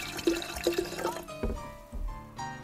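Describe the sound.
Junmai daiginjo sake made with Sasanishiki rice being poured into a glass, giving soft gurgling and splashing bursts of liquid that come in uneven pulses at a low, steady level.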